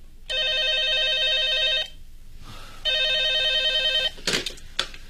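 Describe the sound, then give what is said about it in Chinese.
A telephone rings in a police office in two long, steady buzzing bursts separated by a short pause, followed by a couple of brief clunks. “电话铃又响”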